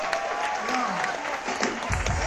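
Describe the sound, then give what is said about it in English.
Audience applause for an opening act at a live blues and banjo concert: steady, dense clapping that holds at an even level across the whole clip. “You actually need to give a nice round of applause for our opening act”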